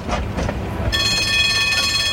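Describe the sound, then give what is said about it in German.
A tram running on rails, a steady rumbling ride with a sustained high metallic whine and tonal hum setting in partway through, no talking. “Sie stiegen in das Tram Nummer 8 ein.”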